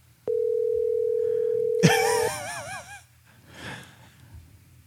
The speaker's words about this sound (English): We'll just keep calling him until he picks up.